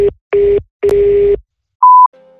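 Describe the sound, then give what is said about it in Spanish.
Voicemail tones before recording: three steady low tone bursts with short gaps, then a single higher, brighter beep, followed by a faint, low lingering tone. “La llamada se cobrará al terminar los tonos siguientes.”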